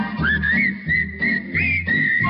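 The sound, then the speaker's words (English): Whistling carries a bright, tuneful melody in a few short phrases over steady backing music with a low bass beat, all loud and continuous. “You see whistling people.”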